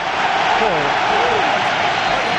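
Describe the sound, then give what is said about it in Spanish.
A stadium crowd at San Mamés applauds footballer Ibai Gómez on his return. A steady, broad roar of clapping runs under a commentator's voice. “Se retira Óscar de Marcos ovacionado y atención también a los aplausos que va a recibir Ibai Gómez.”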